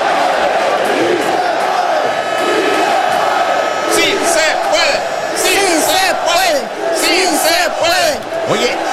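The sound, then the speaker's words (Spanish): A stadium crowd in Mexico chants the Sí Se Puede cheer, a mass of voices rising into loud rhythmic shouted bursts partway through over a constant roar of the crowd. “esa porra que a mí también me gusta mucho, el famoso Sí Se Puede, Sí, sí se puede. Puede. Y suena así, se escucha así, escucha, en un estadio se escucha así.”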